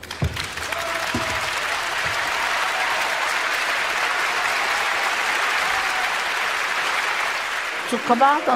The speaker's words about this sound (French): Immense ovation.